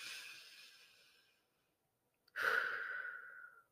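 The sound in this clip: A person takes a slow, deep breath: a soft, drawn-out inhale, a short silent pause, then a louder, breathy exhale that fades out gently.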